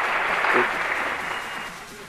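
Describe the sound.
An audience applauds and cheers in a short burst of clapping that eases off slightly toward the end, with a brief voice heard over it.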